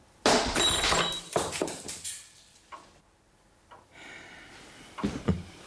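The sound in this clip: A silenced revolver shot shatters a crystal ashtray on a small table by a fireplace: a sharp, bright crash opens, followed by several scattered clinks and knocks that grow sparser and fainter.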